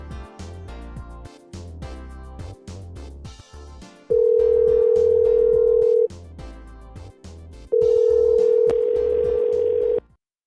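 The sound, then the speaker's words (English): Telephone dial tone, a steady flat hum sounding twice with a silent gap between, preceded by a run of short clicking and tapping noises as the call is set up. “Alright, who wants to make a phone call?”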